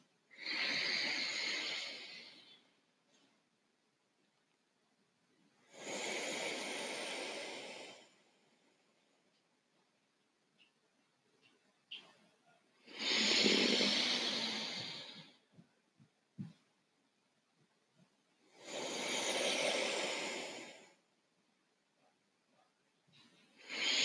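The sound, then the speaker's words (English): Deep, mindful breathing: slow, long, airy breaths in an even rhythm, each swelling and fading over a few seconds, separated by quiet pauses, with another breath beginning at the end. “taking three deep, mindful breaths.”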